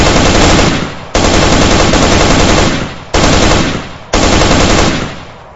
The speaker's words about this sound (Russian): И сразу попал в перекрестный огонь из 2 стволов.